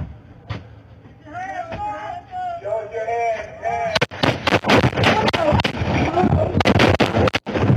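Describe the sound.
Gunshots erupt during a tense confrontation in which people are ordered to show their hands: after a stretch of speaking voices, a rapid volley of many loud, sharp bangs fires in quick succession, overlapping and continuing to the end.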